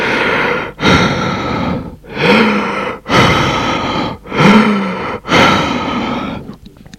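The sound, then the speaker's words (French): Heavy, labored breathing from a patient lying on an examination table during a medical check, with several loud, rhythmic breaths pausing briefly between each and a few carrying a gasping, throaty edge. “Elle lui écoute le corps. Respirez. Respirez plus fort. Respirez.”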